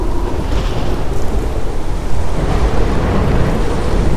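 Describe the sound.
A strong storm at sea as a sound effect, with wind and waves: a loud, continuous rushing roar that stays dense and even throughout, with no voices.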